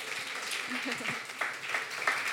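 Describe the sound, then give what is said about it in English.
An audience gives faint, steady applause, a soft patter of many hands with a few sharper claps standing out. A voice briefly sounds through it. “Please give a big round of applause.”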